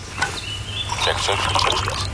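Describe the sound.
Coffee is poured into a cup: a soft, faint liquid trickle and splash lasting about two seconds.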